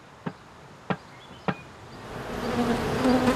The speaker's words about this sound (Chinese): 4个月前放置在这里的一个蜂箱，蜜蜂已经在里面安了家。